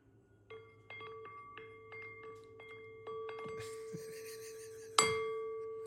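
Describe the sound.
A singing bowl is stirred around its rim, building a sustained metallic ringing tone. Light knocks and taps come throughout, and a louder strike near the end leaves the bowl resonating.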